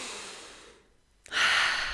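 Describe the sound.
A deep breath drawn in, heard as a loud, airy hiss that starts abruptly after a brief near-silence and holds steady to the end.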